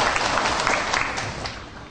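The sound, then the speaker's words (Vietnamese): Applause bursts out for a gift presented during a Buddhist talk: dense, continuous clapping from an audience that stays fairly even and tapers slightly toward the end. “Cho một tràng pháo tay tặng phần quà.”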